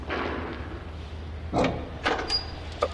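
A tool cupboard door being opened, heard as a few short clunks and knocks at uneven intervals over a low, steady hum.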